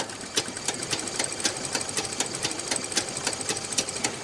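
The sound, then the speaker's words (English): Sewing machines, a treadle model and an electric one, run during a women's sewing training class. They give a fast, regular mechanical clatter that stays steady and fairly even in loudness throughout. “These women are getting trained on two kinds of sewing machines.”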